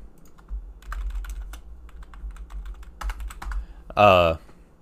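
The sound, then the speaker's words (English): Someone types on a computer keyboard, with quick irregular clicks pattering throughout and a brief voiced sound near the end. “you gotta type that one out”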